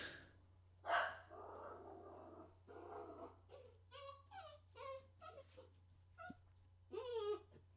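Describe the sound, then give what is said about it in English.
A dog reacts to fireworks with a burst of noise near the start, then several wavering, high-pitched whining cries, all faint and quiet. “That's the dog. Apparently someone decided to set off a firework, and that was the reaction that you got. The podcast dog does not like fireworks.”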